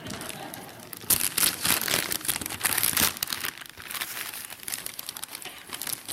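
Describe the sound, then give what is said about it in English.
A gift being ripped open during a morning church sermon: wrapping paper crinkles and tears in a busy, continuous stream of crackling rustles, with louder surges of ripping in the middle. “I want us to open the gift this morning. Virginia asked me how I was going to open the gift. I said, I'm going to do like any other man. I'm going to rip it apart.”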